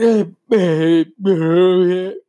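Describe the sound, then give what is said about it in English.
A yawn, voiced and drawn out, comes in three long vocal stretches separated by short pauses. It is fairly loud, with no spoken words. “sorry, that was the weird yawn thing that happened”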